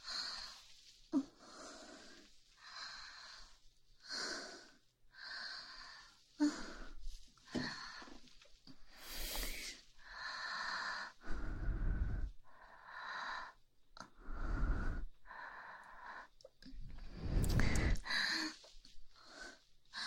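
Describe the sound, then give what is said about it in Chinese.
Rapid, heavy breathing from a person: many quick, noisy breaths with a wheezy, rasping edge follow each other in a steady rhythm, with no talking. “呼吸也这么快？”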